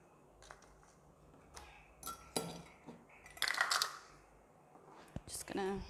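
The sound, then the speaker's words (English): Dirty dishes and utensils being put in the sink, heard as faint scattered clinks and clatters of crockery and cutlery, with a louder jumble of knocks near the middle and a few sharp metallic taps toward the end. “Put the dirty stuff in the sink quick.”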